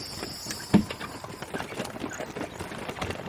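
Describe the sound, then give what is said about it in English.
Hooves of a horse pulling a hackney cab clip-clop in a steady run of many regular strikes, with one louder knock near the start. “Can we take the hackney cab? Of course. Come on up. Where are we going? Prategas, hurry.”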